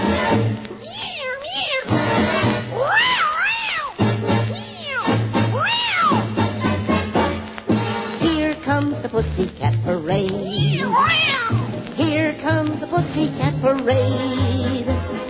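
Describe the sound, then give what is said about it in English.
Singing voices imitate cats meowing on a backyard fence, with sliding meow-like wails over a loud, continuous musical backing that runs throughout. “Have you heard those cats recently on the backyard fence?”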